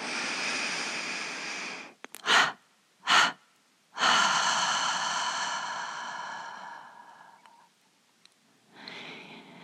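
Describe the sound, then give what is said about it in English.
A gentle inhalation through the nose is followed by a triple exhalation through the mouth: two short, forceful puffs, then a long, slowly fading breath out, during a guided meditation. A soft breath begins again near the end. “a gentle inhalation through the nose and a triple exhalation through the mouth”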